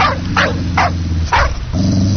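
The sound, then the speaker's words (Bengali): A foreign-breed dog barks four times in a steady rhythm, loud sharp barks over a constant low hum. “এ তো দেখি বিদেশি কুকুর।”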